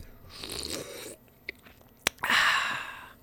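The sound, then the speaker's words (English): Sipping and gulping from a fresh coconut berry Red Bull energy drink, soft wet mouth sounds followed by a sharp click and a longer fizzy hiss, fairly quiet overall. “drinking a fresh coconut berry Red Bull right now. Actually, this is pretty good.”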